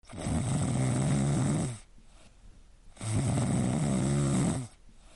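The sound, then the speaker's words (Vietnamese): Snoring comes from sleepers resting on bunk beds in a rest room after a night of hard work. Two long, loud, rasping snores are separated by a quiet pause. “Trong phòng nghỉ vang lên tiếng ngáy của ba người.”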